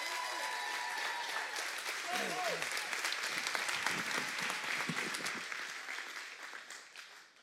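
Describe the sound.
An audience applauds to welcome a speaker onto the stage. The clapping is dense and sustained, holds steady, then fades out toward the end.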